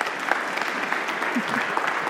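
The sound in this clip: Audience applause welcoming a speaker at a Christian gathering, a steady, moderate patter of many hands clapping for about two seconds.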